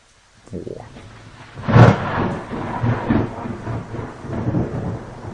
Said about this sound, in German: Das andere Video. Das ist Regen.